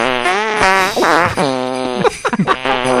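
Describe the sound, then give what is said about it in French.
A loud fart sounds as a few long, buzzing, tonal blasts with wavering pitch, ending in a burst of wet, sputtering pops. “Tout le monde aime les pets. Tout le monde, surtout les pets sauces comme ça en finale.”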